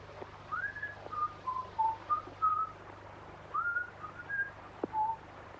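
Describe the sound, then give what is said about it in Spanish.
A person whistles toward a birdcage in a string of short, clear, mid-pitched melodic notes, grouped into two phrases with a brief pause between them, over a steady low hum. “Vuelve a silbar hacia una jaula de pájaros.”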